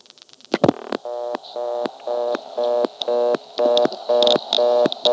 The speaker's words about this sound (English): So I'll dial 5 now.